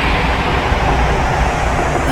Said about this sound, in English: This is where it gets really rough. Engaging braking thrust now.